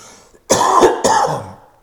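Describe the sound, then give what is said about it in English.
A person coughing twice: two harsh, loud bursts a moment apart, heard alone with no speech. “And I still got this cough.”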